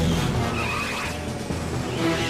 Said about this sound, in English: Junie struggles to control the vehicle as it hurtles at great speed.